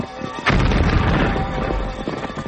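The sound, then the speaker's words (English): A huge dynamite charge blasts open a heavy safe: one sharp, loud booming burst erupts, followed by a sustained, rumbling, crackling roar that slowly fades. “The blast destroyed not only the safe, but every scrap of its contents.”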